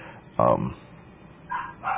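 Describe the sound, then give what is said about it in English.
A dog barks a few times: one loud, full bark followed by two shorter, thinner barks, with a faint background hum between them. “why does she have the dog barking? Is that just typical?”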